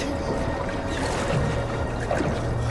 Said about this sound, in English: They doggy paddle through dark tunnels.